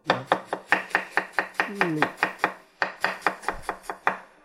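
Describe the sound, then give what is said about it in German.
Knife chopping food on a cutting board: many quick, sharp strokes in an even rhythm, with a brief pause past the middle before the steady chopping resumes. “jetzt einmal halbieren, schneiden, halbieren und schneiden.”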